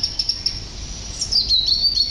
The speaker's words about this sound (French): Et au-dessus d'eux, eh oui, dans l'arbre, le merle chantait, la fauvette chantait, le rouge-gorge chantait.